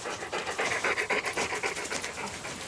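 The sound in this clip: Hunting dogs pant rapidly and steadily, many quick breathy huffs in an even rhythm, moderately loud and without talk.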